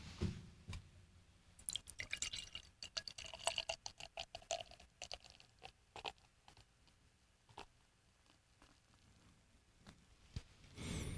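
Beer poured from an already opened bottle, heard faintly as many small splashing drips and gurgles that come in irregular bursts, swelling into a denser pour near the end.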